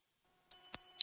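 A high-pitched, steady electronic beep that imitates tinnitus begins after a half-second of silence and holds one piercing tone, with a couple of faint clicks over it.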